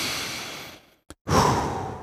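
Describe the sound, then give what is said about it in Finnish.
A small inhalation, an airy rush of breath drawn in, preceded by a fading breathy sound and a brief silence, with no talk. “Tuon kappaleen jälkeen on hyvä ottaa semmoinen pieni sisäänhengitys. Teetkö sen kanssani?”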